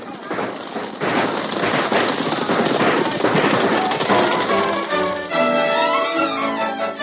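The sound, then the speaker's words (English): Dramatized gunfire rings out as bank robbers make their getaway after blowing a vault: a dense, loud barrage of crackling, popping shots over a rough roar, with voices emerging toward the end. “Robbers got away after a running gun battle, and with them went $5,000 from the vault of the Bank of Wellston.”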